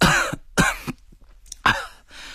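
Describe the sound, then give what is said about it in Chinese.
A storyteller's voice imitates a sick man coughing: three harsh, throaty cough bursts with a short rough rasp between them, loud against a quiet background. “这桑道茂咳嗽着，还喘呐”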